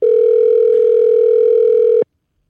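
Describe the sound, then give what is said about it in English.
A telephone ringing tone sounds while a call is being placed: one loud, steady, mid-pitched tone holds for about two seconds, then cuts off into silence. “So let's give Ray a call and see if he answers. Do we believe Ray picks up?”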